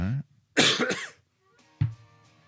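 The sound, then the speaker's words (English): Coughing: a few harsh, rough bursts separated by short silences, with the middle bout longest and loudest. “So as I cough up another lung.”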